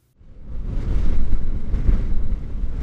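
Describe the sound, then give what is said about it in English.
A violent wind in Jeffrey City roars against a car, heard from inside as a deep, rumbling buffeting that swells in after a moment of quiet and stays loud and steady. “Through Jeffrey City blows a wind so violent it sounds like this from the inside of my car”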